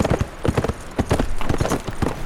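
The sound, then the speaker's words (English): Horse hooves clip-clop as a rider on a saddled riding horse, leading a pack horse, heads out of Denver. Many steady, even hoof strikes beat alone in a brisk walking rhythm. “He saddled up his riding horse, cinched down the pack saddle, and headed out of Denver.”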